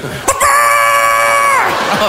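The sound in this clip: A chicken or fowl gives a single drawn-out, harmonic call lasting just over a second, loud and alone, with a short scrape before it.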